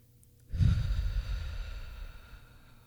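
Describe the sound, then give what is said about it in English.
A single deep breath, the first of several in a release exercise: a long, soft, breathy exhale that rises quickly, holds for over a second and fades, heard alone with no talk. “I'm going to start with taking my first 5 deep breaths and watch how I say what I am releasing.”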